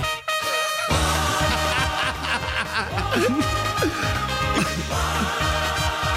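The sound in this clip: An upbeat pop song reaches its end, with a steady beat under bright layered instruments and synth lines playing alone at even loudness.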